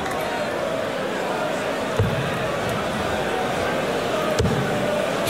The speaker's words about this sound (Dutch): Dan gooit hij de eerste bouncer van deze wedstrijd.